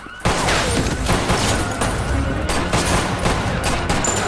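Rapid gunfire as agents and police shoot at each other on a parking-garage level during a chase. Many overlapping loud cracks and bangs merge into a dense, continuous barrage that lasts through the whole clip.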